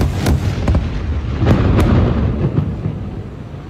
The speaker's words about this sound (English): On September 15th, Israel dropped the Gafri high-rise building in Gaza City. Reporter Ahmed Ibrahimi filmed this clip.